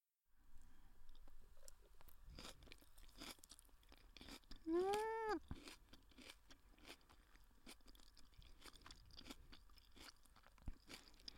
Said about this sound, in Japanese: やっぱ食べ物はシャキシャキしとる方が美味しい。美味しいところから食べてくね。キャベツ。